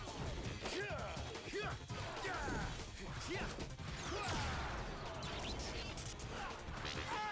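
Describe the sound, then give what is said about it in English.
An enemy throws a shield in a video game amid combat. Whooshes, sharp crashes and thwacks pile up in a dense, continuous mix, with voices running through it. “Oh, so he can throw the shield? That's cool. That would have really hurt had he not, you know, taken care of that.”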